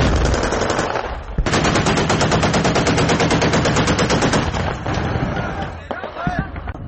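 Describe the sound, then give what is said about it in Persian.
Automatic gunfire rattles during street fighting in Aleppo as Syrian forces push into the city. A short burst gives way to a long, sustained volley of rapid, loud shots, followed by scattered sharper cracks. “بعدی ضربه های زیادی هوایی و تیراندازی ها نیروهای سوریه به داخل شهر حلب حرکت میکنند.”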